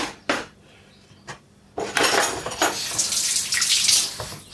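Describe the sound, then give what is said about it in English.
Running tap water rinses hands after a couple of brief, sharp clinks of dishes, then flows loudly and steadily without a break through to the end. “Rinse my hands.”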